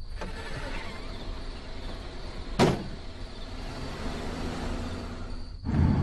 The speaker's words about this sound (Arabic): افتحي الشباك وأضيئي أمامي.